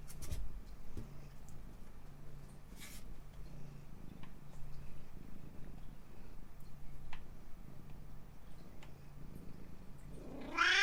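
A cat purrs in a low, steady rumble for the whole clip, faint throughout, with a higher, rising cry breaking in at the very end.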